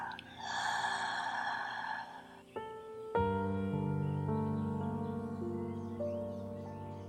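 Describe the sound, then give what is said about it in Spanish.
A slow, deep breath, in through the nose and out through the mouth, during a guided breathing exercise. The soft, airy breath lasts about two seconds, and sustained gentle musical tones follow. “Vuelve a tomar una respiración profunda. Inhala por la nariz y exhala por la boca.”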